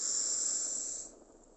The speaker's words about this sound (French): Et d'un coup, vous allez faire une grande inspiration.